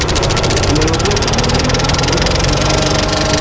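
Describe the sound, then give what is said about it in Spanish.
A film projector runs, its lamp and mechanism producing a loud, steady mechanical whir and hum with a fast, regular flutter throughout. “Ahora arrancamos la lámpara. Y ahora ya podemos proyectar. Arrancar, está todo metido.”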